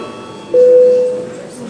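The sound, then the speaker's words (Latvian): A single steady electronic bell tone rings before a break in a parliamentary session, holding level for about half a second and then fading out against a quiet background murmur. “Lūdzu zvanu.”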